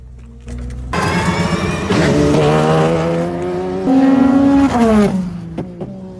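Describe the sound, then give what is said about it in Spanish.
Hypercar racing car driving laps on a track: a loud, sustained harmonic engine note that steps up and down in pitch, then drops away near the end with a few brief bursts. “Hypercars tiene un sonido peculiar y pues quiero compartirlo, así que vamos a verlo.”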